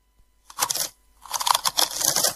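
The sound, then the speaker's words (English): Crunching of Frimax potato chips being eaten: a short burst of crisp crackling, then a pause and a longer, denser run of crunching, with no talk. “these Frimax chips are so tasty”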